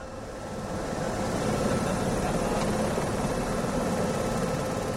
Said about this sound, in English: That's the sound of a Duke Life Flight chopper revving up for takeoff.